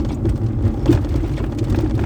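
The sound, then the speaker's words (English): Car driving over a bumpy road, a constant rumble of tires and body with irregular thumps and rattles scattered through it, fairly loud and without voices. “here we go with the bumpy ass ride, man. Let me slow this shit down. There ain't nobody on this road.”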